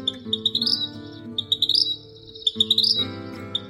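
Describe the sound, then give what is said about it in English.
A vermilion flycatcher calls in a few quick bursts of high, bright chirping notes, each burst a rapid series, over low, steady sustained tones. “It's the vermilion flycatcher.”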